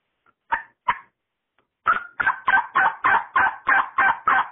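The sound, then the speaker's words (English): Hen turkey yelps on a Woodhaven split V mouth call, blown at normal pressure for a basic mid-to-high tone. Two short raspy notes come first, then a steady, evenly spaced run of about nine loud yelps, with no talking. “So let's hen yelp here. I've got my, my Ellis Woodhaven split V here. And basically, normal pressure, you're going to do your hen yelp.”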